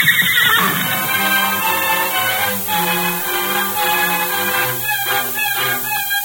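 A saddled horse neighs loudly, a shrill, wavering whinny carried by continuous tonal sound through the whole clip.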